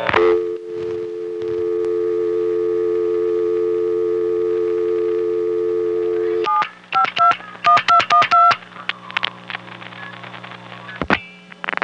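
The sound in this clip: A steady telephone tone holds for several seconds, then an exchange sender fires a rapid run of short two-tone digit bursts for a call to the time-of-day announcement, followed by scattered faint clicks and tones.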